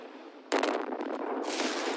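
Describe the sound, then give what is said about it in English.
An explosion, likened to the roof being blown off a factory, bursts in suddenly after a low hiss and continues as a loud, sustained, crackling roar to the end. “The hell was that? Sounds like someone blew the roof off the card factory.”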